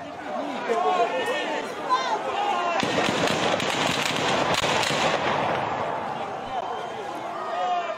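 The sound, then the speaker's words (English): Protesters against the Russian invasion, with soldiers firing guns into the air: a loud, steady crowd din with voices, broken in the middle by many sharp, quick cracks before the crowd noise carries on alone. “thousands of people protested against the Russian invasion this weekend, which Russian soldiers tried to disperse by shooting their guns in the air.”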